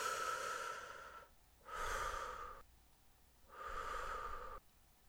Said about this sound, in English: take a couple deep breaths, just inhale and exhale.